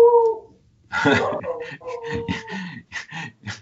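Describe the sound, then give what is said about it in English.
A dog howls and whimpers in short tonal bursts, with a human voice mixed in and overlapping the calls. “The dog agrees.”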